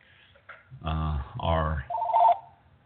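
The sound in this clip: A home telephone rings with an incoming call: one short burst of electronic ringing near the end, partly under a man's talking voice.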